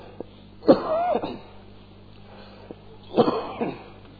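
Two separate coughing fits during a religious lecture, each a short cluster of harsh, rough bursts, with a quiet pause between them and no talk over them.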